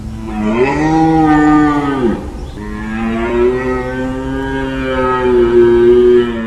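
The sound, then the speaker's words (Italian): A male deer bellowing during the rutting season: two long, powerful, deep harmonic calls. The first ends in a falling pitch, and the second holds steady and loud to the end. “Ma questa è una mucca. No, è un cervo. È una mucca con le corna. È un verso potentissimo.”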